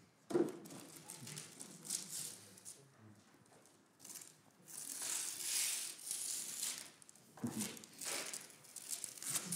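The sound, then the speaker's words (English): A boy rips open a package: a sharp knock near the start, then faint tearing and crinkling of packaging in a few rough, irregular bursts. “Come and open this. Good lad. Right, just rip it open. Go for it.”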